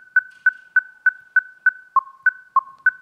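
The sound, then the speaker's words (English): Auditory oddball sequence of the kind played to anesthetized rats: ten short, evenly spaced tone pips at a steady rhythm. Most share one higher pitch, and two slightly lower rare pips interrupt near the end. “So we use these oddball sequences composed of two sounds. One of them is common, the other one is rare. Again, it sounds like this.”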